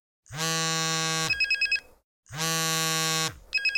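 A telephone rings twice, each ring a bright, buzzing electronic tone held for about a second and followed by a quick flurry of chirping pulses, with a brief pause between the two rings.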